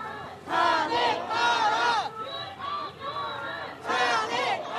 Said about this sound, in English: So this is the sound of people chanting for Yoon to be impeached.